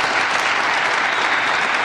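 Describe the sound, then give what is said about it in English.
Loud, sustained applause from an audience during a speech about nuclear energy: a dense, even roar of clapping that holds steady throughout with no voices on top. “you can't applaud that point, I see. How revealing.”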